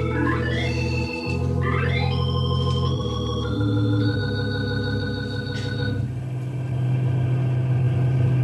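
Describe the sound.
A car driving on a road past giant pines, its engine a continuous low rumble with shifting pitch and gear changes, steady and unbroken, with no voices over it.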